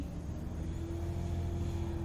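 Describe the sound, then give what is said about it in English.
Low, steady rumble of a car driving along a highway at night, an even road drone with a sustained humming tone underneath, holding constant without changes in level or any voices. “So, we are just driving along the highway.”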